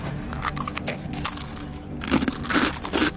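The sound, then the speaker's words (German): Crisp bites and crunchy chewing of a zebra samosa, a few crackling crunches at moderate loudness with short pauses between them. “Hier, Zebra-Samosas, iss mal einen Happen.”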